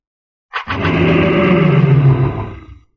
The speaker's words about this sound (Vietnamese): Hàn Lập lại lần nữa hóa thành thân kim mao cự viên, gầm lên mãnh liệt.